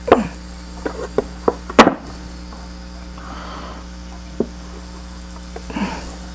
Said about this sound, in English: around the edges of the rice pot so that it makes it easier to get the rice out. Now we dump it.